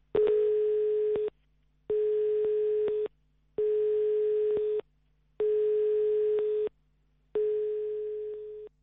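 A telephone line tone sounds while a call is placed to a dialed number: five long, steady mid-pitched beeps separated by short silent gaps, heard alone and clearly.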